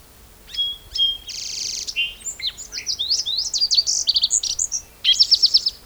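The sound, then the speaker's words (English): A song sparrow sings: a sequence of bright chirps and buzzy notes that builds into a run of quick, even-paced trilled notes and ends with a fast, high trill, clear over a quiet background. “Song Sparrow in the background.”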